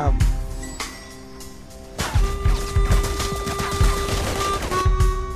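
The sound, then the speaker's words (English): Gunfire in the video game Battlefield Heroes: dense bursts of rapid shots and sharp impacts crackle almost without pause, with a few steady electronic tones running beneath the barrage. “He just won't die. I'm going to get him. No, I'm being shot at.”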